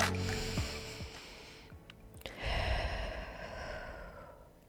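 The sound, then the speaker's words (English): A deep breath, drawn in slowly and let out, a soft airy hiss of moving air with no speech over it. “Let's take a deep breath.”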